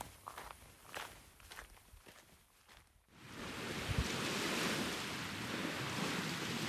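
Footsteps walk along a nature trail in a steady series of soft crunching steps for about three seconds. A loud continuous rush of wind or surf then takes over.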